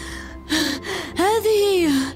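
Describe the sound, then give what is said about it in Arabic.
A man panting, out of breath after running and trying to speak: a short breathy gasp, then a longer strained voiced exhale with a wavering pitch. “فحين وصل عندنا بدأ يلهث وهو يحاول التحدث.”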